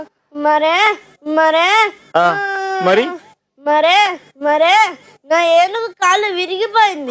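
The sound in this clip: A young boy cries in a series of loud, wailing sobs, each burst rising and wavering in pitch, with short gaps for breath between them.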